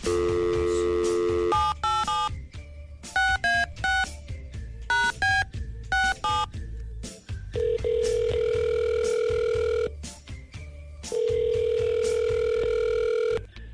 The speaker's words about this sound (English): we're going to give her a call right now.